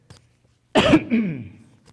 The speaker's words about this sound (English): So, just so you know, excuse me for coughing. The allergies are bugging me.